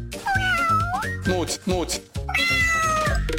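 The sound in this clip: A cat meows loudly several times, each drawn-out call bending up and down in pitch, with brief pauses between the calls.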